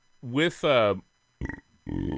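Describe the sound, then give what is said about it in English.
Two long, loud, throaty burps back to back, followed after a pause by two shorter voiced sounds. “double burp. How about that?”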